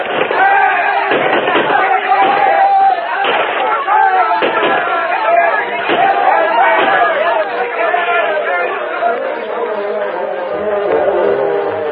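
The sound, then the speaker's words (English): A rifle volley in an old radio drama battle, pioneers firing on a charging mounted band, with repeated muffled shots and bangs in a dense, narrow-band din under shouting voices. “The first volley from the white men sent a dozen spilling from the saddles, but the rest charged on.”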